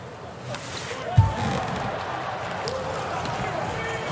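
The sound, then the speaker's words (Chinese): A single thud of a volleyball serve being struck during a Poland vs Ukraine match rises briefly above a steady wash of crowd noise. “博瓦兹发球”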